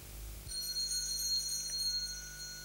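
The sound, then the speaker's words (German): A house doorbell that has not rung in years gives a continuous, steady electric ring. It starts abruptly and holds to the end over a low background hum. “Ob das die Polizei ist? Nur der Briefträger. Der hat schon seit Jahren nicht geläutet.”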